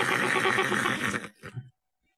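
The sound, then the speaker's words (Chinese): A neigh from a fine, prized steed as its rider spurs it on: a loud, long whinny lasting over a second, followed by two short, fainter snorting bursts before silence. “石路这匹马那是宝马良驹，当时石路一打马，这匹马四蹄蹬开，翻蹄亮掌”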